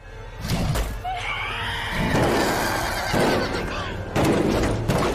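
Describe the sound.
A horse gives a loud, high whinny as a rider charges in during a film scene with a dinosaur, with clip-clopping hooves and a dense, noisy background throughout.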